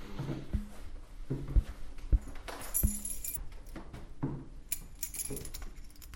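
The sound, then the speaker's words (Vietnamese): Keys jangle in a hotel during a stair search, giving a few metallic clinks and rattles over steady background noise. “Chìa khóa tao giữ không?”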